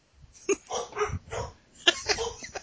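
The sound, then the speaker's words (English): Dogs make a few short yips and whimpering noises in quick bursts, fairly faint, with no talking over them. “My dogs like it too. See, they're just picking up. You can hear. I don't know if you can hear them or not”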